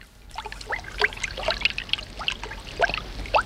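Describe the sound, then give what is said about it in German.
Water gushing and splashing from a dripping tap that has burst into a spring-like flow: a busy, irregular spatter of bubbly splashes and trickles that runs throughout at moderate level, with no voices. “Sie warten auf den Klempner, weil der Wasserhahn tropft. Doch es kommt schlimmer. Schon sprudelt es wie eine Quelle.”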